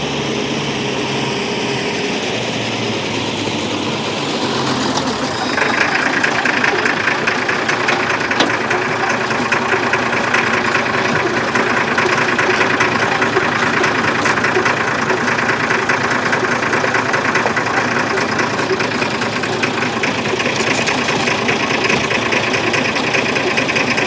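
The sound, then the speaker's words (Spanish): An old country bus idles at the entrance to a small village in the Castilian highlands, its engine giving a steady, rattling drone that brightens slightly after a few seconds and then holds unchanged to the end. “Un viejo autobús de línea para a la entrada de un pueblecito de la serranía castellana.”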